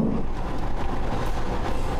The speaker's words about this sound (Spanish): Anuncio cierre de puertas. Cerramos puertas y nos dirigimos a una estación más.